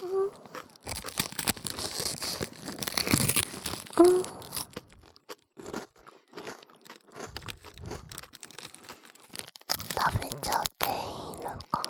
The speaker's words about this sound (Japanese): うん、これいいおせんべいだからね。 先輩おいしいよ。